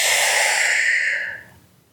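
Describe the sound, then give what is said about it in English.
A slow, deep breath during a guided calming exercise, a soft airy hiss held steadily for over a second before trailing off into quiet. “Let's breathe in and breathe out.”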